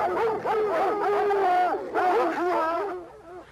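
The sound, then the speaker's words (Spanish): A pack of hounds baying in a forest while chasing a raccoon, overlapping wavering howls and drawn-out yelps rising and falling in pitch without a break. “Hasta el corazón del bosque llegaban los ladridos de la jauría.”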